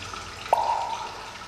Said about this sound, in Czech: Potok, jak vidíte, zmohutněl.